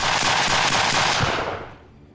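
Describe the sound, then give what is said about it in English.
Gunfire from a handgun on a street in Medellín: a rapid burst of sharp shots run together, loud at first, then fading away over the last second. “With that, he produces a gun and shoots Andres 6 times in the back.”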